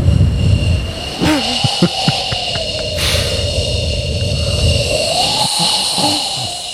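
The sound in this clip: A blower runs continuously with a steady, broad whooshing roar and a faint tonal hum, holding an even loudness throughout.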